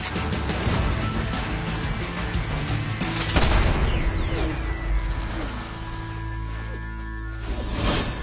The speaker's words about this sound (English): Only a few people in the world have this ability, and you are one of them. You're crazy. Shoot the target. Let your instincts guide you.